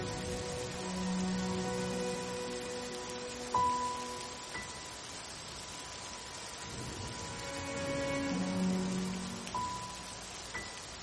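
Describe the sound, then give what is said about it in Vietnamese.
Heavy rain beating against windows, a steady dense hiss that rises and falls slightly in strength throughout. “Ngoài trời bỗng nhiên đổ một trận mưa to, trên trả đập ầm ầm vào trong cửa sổ.”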